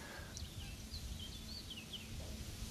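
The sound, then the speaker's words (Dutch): Eurasian reed warbler singing in reeds, picked up by an outdoor microphone: a few thin, high chirps and short scratchy notes scattered over a steady low rumble of background noise. “Kijk op onze eigen buitenmicrofoon hier. Ja, er vliegen voortdurend boerenzwaluwen over. De rietzanger horen wij in het riet.”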